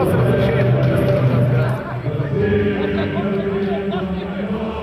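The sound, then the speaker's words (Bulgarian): A protest crowd sings the patriotic songs Stani, Stani and Yunak Balkanski, a mass of sustained voices over steady crowd babble, fairly loud at first and easing slightly after two seconds. “Под звуците на Стани, Стани и Юнак Балкански.”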